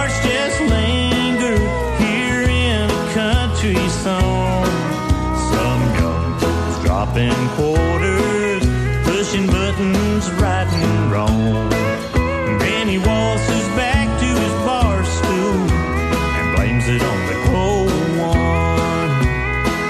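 Country-style song from the video game Dead Rising, with steady full-band accompaniment and a sung lead vocal, loud and continuous throughout.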